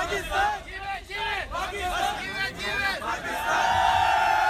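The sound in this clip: Hundreds of people crowd outside Pakistani cricket captain Sarfraz Ahmed's home in Karachi after the Champions Trophy win, shouting and chanting under a talking voice, the crowd noise swelling louder near the end.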